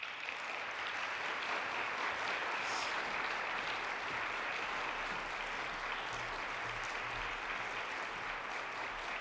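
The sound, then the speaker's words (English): Audience applause welcomes a trombone, trumpet and piano trio to the stage, a steady, even patter of many hands clapping, faint and sustained throughout. “Please join me in welcoming them to the stage.”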